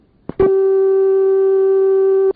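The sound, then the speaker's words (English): A telephone dial tone from a vintage exchange system: a short click, then one steady, buzzy hum rich in harmonics, held for about two seconds before cutting off abruptly. “And it also has a much nicer dial tone”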